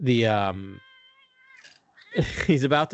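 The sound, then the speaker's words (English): A cat climbing over a person's shoulders lets out one drawn-out, high, steady meow, heard alone between stretches of human talk. “my cat's climbing over my shoulders and wanting to say his piece”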